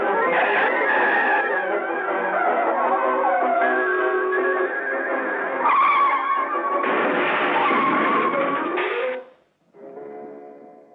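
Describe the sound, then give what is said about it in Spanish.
A sports car skidding in a 1957 animated cartoon: a long, wavering, squealing screech holds loud for about nine seconds, then cuts off briefly before a fainter, steadier tone. “Su principal pesadilla es el carro Sport, que no tiene ningún respeto hacia sus mayores.”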